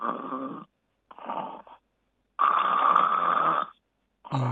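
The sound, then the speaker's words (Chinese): A person imitates steady, continuous snoring with no breathing pauses. A few raspy, buzzing snores come in a regular rhythm, one noticeably longer than the others, with short silences between them. “正常的就是如果单纯的没有呼吸暂停的呼鼾声应该持续的，就像这样，”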